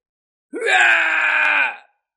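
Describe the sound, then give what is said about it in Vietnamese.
An anguished scream from a man in agony, a single loud, sustained voiced cry lasting just over a second, opening with a quick upward swoop, then holding steady and strained before cutting off abruptly. “Một tiếng hét thảm phát ra, vị cổ thánh này giãy giụa kịch liệt nhưng lại khó có thể tránh thoát.”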